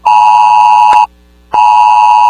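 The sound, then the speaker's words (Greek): A loud 112 emergency alert tone goes out to residents during a fire with thick black smoke. It gives two long, steady electronic tones with a buzzing harmonic edge, separated by a short silent gap. “Μήνυμα του 112 κάλεσε τους κατοίκους να προστατευτούν καθώς η ατμόσφαιρα ήταν ασφυκτική.”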